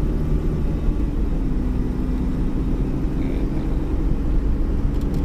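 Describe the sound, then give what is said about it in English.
A car driving, heard from inside, with a steady low engine rumble and road noise throughout and no talking. “And yes, I'm moving about here in a car.”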